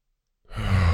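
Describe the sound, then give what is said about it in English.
A deep breath exhaled during a guided breathing exercise: silence, then one long, loud, breathy exhale starts midway and holds steady to the end. “Let's take a deep breath in through the nose, deep into the solar plexus.”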